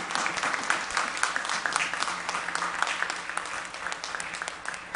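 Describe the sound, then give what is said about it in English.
A church audience applauding to welcome a newly baptized member, with steady, moderately soft clapping from many hands that keeps an even level throughout. “So let us give Judy a hand, a welcoming hand.”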